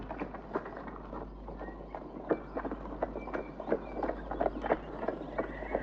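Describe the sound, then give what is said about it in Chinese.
Faint, steady clip-clop of horse hooves pulling a carriage, with many evenly spaced hoofbeats over a low continuous hum. “离开圣约翰兄妹，坐上马车朝桑菲尔德奔去。”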